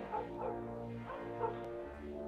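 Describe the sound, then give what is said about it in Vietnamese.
Neighbourhood dogs barking together out on the street at night: a few faint, repeated barks and yips rise over a low, steady hum. “ở ngoài đường tiếng chó sủa rộn ràng. Những con chó của các nhà xung quanh cứ tranh nhau sủa ầm ĩ.”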